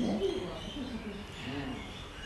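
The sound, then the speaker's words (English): Birds call noisily throughout in a dense, continuous chatter of overlapping calls, fairly faint and steady in level. “Those birds are making so much noise. We can't hear ourselves think.”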